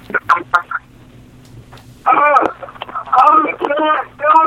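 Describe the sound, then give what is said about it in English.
A caller's radio plays in the background over a telephone line, thin and tinny, with bursts of voice alternating with short pauses above a low steady hum. “Turn down your radio, caller.”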